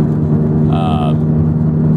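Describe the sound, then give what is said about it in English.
A car making a lot of noise: a steady, loud low engine drone throughout, with a brief higher whine rising out of it near the middle. “this car is making a lot of noise.”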